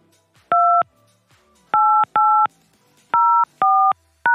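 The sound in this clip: Telephone keypad touch-tones dialing into a conference call line: six short, loud dual-pitch beeps of steady pitch with uneven gaps between them, the last one cut off at the end, and no talking.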